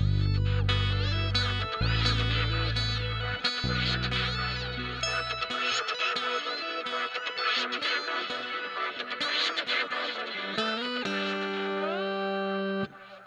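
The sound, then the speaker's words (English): A noisy, effects-laden electric guitar plays dense, distorted sustained notes and chords. Low droning tones underneath drop out after about five seconds, and a held note bends upward near the end before cutting off. “He even did some of that weird, noisy guitar stuff that we were talking about.”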